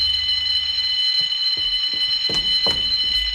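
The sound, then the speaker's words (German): A burglar alarm rings without pause in a steady, high, piercing electronic tone, with a few low thuds sounding beneath it. “Verdammte Alarmanlage. Hoffentlich kommt bald der Besitzer, um das Ding abzustellen.”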